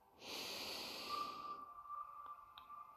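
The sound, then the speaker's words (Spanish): A deep inhale during a mindfulness breathing exercise: one long, airy rush of breath drawn in steadily for over a second, soft and alone. “Inhala profundo.”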